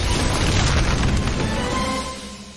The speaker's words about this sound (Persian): نارنجک داره میاد.